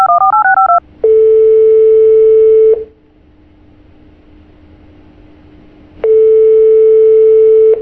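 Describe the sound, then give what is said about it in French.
Telephone keypad tones as a number is dialed: a brief run of paired beeps, then a long steady ringing tone, a stretch of faint line hiss, and the ringing tone again. “Alors, je vais composer le numéro.”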